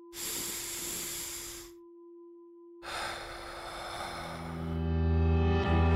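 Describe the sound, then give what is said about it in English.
A deep breath: two long, breathy rushes of air, separated by a short pause, over a steady low hum. Faint tonal sounds rise toward the end. “Let's take a deep breath. Wherever you are, feel those ribs expand, that chest lifts towards your chin. Let's do it now.”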